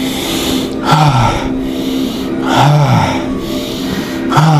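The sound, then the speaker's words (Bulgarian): Bhastrika pranayama breathing with deep inhales and forceful, sharp exhales: a few breathy whooshes about two seconds apart, set over a soft, steady tone. “Дишване, издишване. Дълбоко вдишвай, рязко издишвай.”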